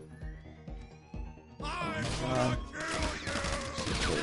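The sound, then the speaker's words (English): Gunfire in the video game GTA Online during a casino heist mission: a few dull, rhythmic thumps, then a dense, loud burst of shooting over the second half, mixed with voices. “I spawned into gunfire. I'm dead.”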